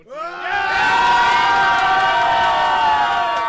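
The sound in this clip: A group of supporters from Soka cheer to celebrate a World Championship bronze medal. After a brief start, a loud, sustained chorus of shouting voices holds steady to the end.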